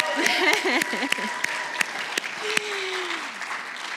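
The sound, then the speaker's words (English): A church audience applauds its volunteers. Individual sharp claps stand out over a softer wash of clapping, and a voice calls out briefly at the start. “So I want you to clap for her, but also for yourselves and anybody that's volunteered. So loud that even like the kids volunteers can hear it, okay?”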